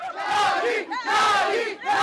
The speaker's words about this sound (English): Outside polling stations, Bukele supporters cheered for their president